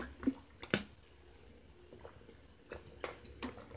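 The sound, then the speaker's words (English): Someone takes a sip of water, with a few soft, wet clicks and a gulp over quiet background. “I'll take a sip of water on that note.”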